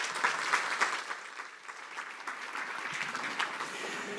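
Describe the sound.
An audience applauds to welcome two speakers at a professional chapter event in Chicago, with continuous, fairly even clapping and a few sharper claps standing out near the start.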